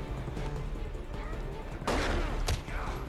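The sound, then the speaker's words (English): Gunfire in a video game, a couple of loud, sharp bursts breaking through a dense, steady wash of game sound, with voices faintly present underneath. “You just shot Batman in the face.”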